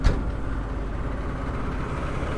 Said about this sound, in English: That is an Oxnard fire truck.